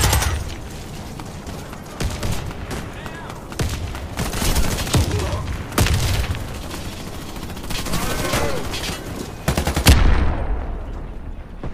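Rapid gunfire in the video game Warface, dense overlapping bursts of shots running almost continuously, with a louder flurry near the end before the sound trails off.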